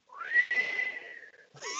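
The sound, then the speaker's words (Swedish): A person who says they have never been able to whistle makes a faint, breathy attempt. The whistle rises in pitch, holds a wavering tone for over a second, then breaks off, and another short tonal sound follows. “Jag kan inte vissla. Det är svårt. Ja, men du får öva. Va? Det var till att testa. Nej, jag har aldrig kunnat det. Ja. Men försök nu.”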